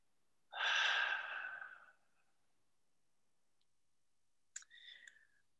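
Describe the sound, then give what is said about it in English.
A single long, deep, airy breath of about one and a half seconds, followed after a silent pause by a short, quieter breathy sound. “I'm going to breathe into that one.”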